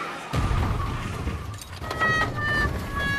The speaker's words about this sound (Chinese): 好，已经变成绿灯了，两辆车几乎同时驶过了停止线，结果是